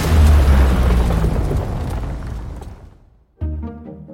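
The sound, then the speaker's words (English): Deep cinematic explosion boom from a movie trailer effect: a heavy rumbling blast that decays over about three seconds, followed after a brief gap by a short tonal hit. “This would be a planet exploding or a building collapsing.”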